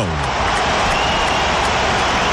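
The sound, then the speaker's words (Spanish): A stadium crowd roars as half-time is reached in a World Cup football match between Uruguay and its opponent in Miami, producing a continuous, loud, dense wall of cheering and noise. “La explosión del público es la señal de que el árbitro ha marcado el final de la primera parte.”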